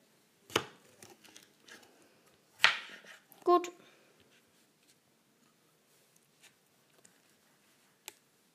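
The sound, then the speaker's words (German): Knife chopping food on a board into small pieces: a few sharp, separate knocks, followed by faint scattered taps and ticks. “ich kann das irgendwie nicht gut schneiden. Und jetzt können wir es nochmal achteln, die Viertel.”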